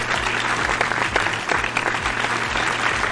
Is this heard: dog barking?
no